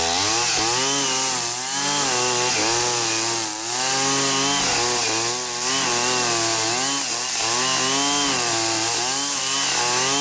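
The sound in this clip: A petrol brushcutter cuts star grass with a loud, continuous high-pitched engine whine. The engine revs surge and dip in a regular rhythm roughly every two seconds as the blade works through the grass.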